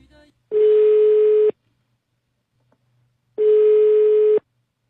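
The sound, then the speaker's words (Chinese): A telephone ringback tone sounds on a call being placed to a mother: two steady, mid-pitched buzzing tones of about one second each, separated by a long silent gap. “那接下来我们又拨通了小娇老师妈妈的电话。”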